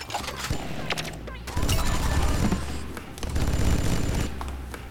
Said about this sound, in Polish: I teraz wezmę sobie broń taką. Naładuję sobie giberkę.